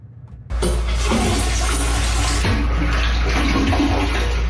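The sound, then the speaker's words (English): A public toilet in downtown Whitehorse flushes: a sudden loud rush of water bursts in after a brief quiet moment, then roars steadily to the end. “That's the sound of a public toilet in downtown Whitehorse, something that many say isn't easy to find.”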